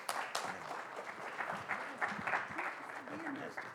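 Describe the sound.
An audience claps to welcome a speaker, a dense, even wash of applause that runs the whole time at a soft, steady level without any clear break.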